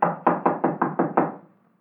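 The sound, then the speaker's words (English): Knocking on a locked door inside a house: seven firm, evenly spaced raps in a quick steady rhythm, then silence. “The door's locked, all right. Well, let's try knocking.”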